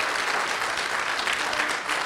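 Church audience clapping hands in joyful praise during a lively worship service: dense, continuous applause with steady loudness throughout, no single claps standing out.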